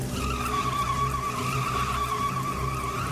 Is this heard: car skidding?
yes